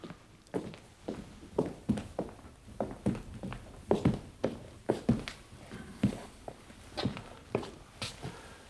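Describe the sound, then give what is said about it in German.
Footsteps of someone walking a few paces closer toward a portrait hanging on a wall, many steady, evenly paced soft steps with no talking. “Wenn Sie ein paar Schritte näher kommen wollen.”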